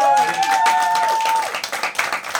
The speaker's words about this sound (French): Ok, merci, on vous applaudit.